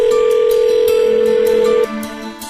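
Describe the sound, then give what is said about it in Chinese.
A steady telephone line tone sounds as a listener's call connects to a radio call-in segment. One loud, unbroken mid-pitched hum cuts off abruptly near the end, and a fainter, lower tone follows. “我们现在就开始令人振奋的电话连线环节吧，来让我们接听第一位听众的来电。”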